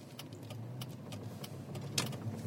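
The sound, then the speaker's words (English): Low, steady engine rumble inside a van driving a short distance and then parking, faint and even throughout, with one brief light clink near the end. “We drive a short distance, and Roger parks the van”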